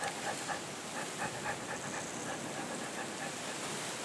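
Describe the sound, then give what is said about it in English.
A cheetah pants after a chase, catching her breath with faint, quick, rhythmic breaths under a steady hiss. “After such a race, the cheetah must catch her breath and lower her body temperature.”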